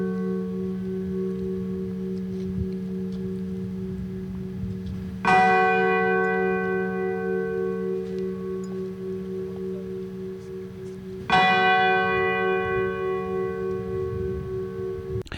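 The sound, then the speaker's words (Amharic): Two strikes of a memorial bell at a WWII commemoration ceremony in Warsaw, Poland. Each loud clang has rich, slowly fading overtones, and the strikes come about six seconds apart over a steady lingering hum. “ካብ ዝተፈላለየ ሃገራት ዝመፁ መራሕቲ ኣብ ዋና ከተማ ፖላንድ ኣብ ዋርሶ ናይ መዘክርታ ደወል ብስምዒታዊ ዝኽሪ ሰሚዖም”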